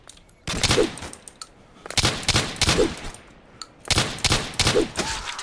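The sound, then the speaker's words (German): Gunfire in a video game comes in three loud, rattling bursts of rapid shots, each lasting under a second, separated by short quiet gaps. “Ups. Falsche Richtung geschossen.”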